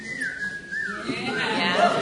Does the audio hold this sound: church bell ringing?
no